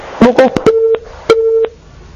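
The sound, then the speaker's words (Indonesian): Telephone busy tone after a call disconnects: two short, steady mid-pitched beeps of equal length, following a brief burst of voice, then quiet. “Alhamdulillah terputus. Ukhti Khawla di Bogor. Sambungan teleponnya terputus.”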